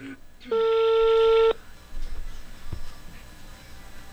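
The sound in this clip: A single steady electronic telephone tone sounds for about one second as a call is placed, standing alone before low background noise and a brief dull thump.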